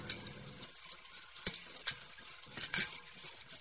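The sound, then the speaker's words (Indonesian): Food is being prepared in a kitchen: faint frying sizzle and soft stirring, broken by a few light clinks of utensils. “Sementara ibunya menyiapkan makanan di dapur.”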